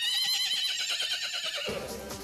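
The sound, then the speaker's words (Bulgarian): A horse whinnies in a barn: a loud, high, quavering neigh that holds for over a second, then breaks into a rougher, lower-pitched tail. “Посрещна ги коня Джордж.”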